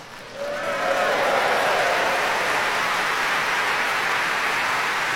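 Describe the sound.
Concert audience applause after an orchestral performance: a dense, hissing wash of clapping that swells over the first second and then holds steady and loud, much like heavy rain.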